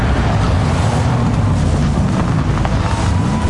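A car engine runs at full power as it drives a road, a loud, steady roar with a low droning hum and broad rushing noise throughout, without pauses.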